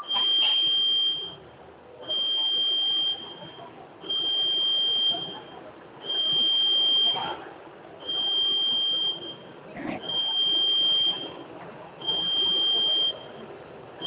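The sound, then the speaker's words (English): A fire alarm buzzes in long, harsh, high-pitched bursts, about seven of them, each lasting around a second with brief gaps, repeating in a steady, even rhythm. “Man, it's like a motherfucker to pull the fire alarm, man.”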